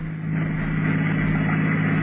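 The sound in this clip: Steady engine drone of a car being driven at night: a low, even hum that holds without change throughout, with no voices.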